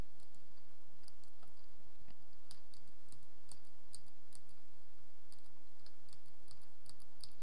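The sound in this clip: Computer keyboard keys click faintly in quick, irregular bursts of many taps while someone works a text-based music player's controls, with steady soft background hiss and no talking.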